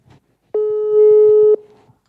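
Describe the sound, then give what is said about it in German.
A telephone call's ringing tone sounds as a single steady electronic beep lasting about one second, clear and even, with only faint murmurs before and after it. “So, with this picture that she posted, let me call her right now.”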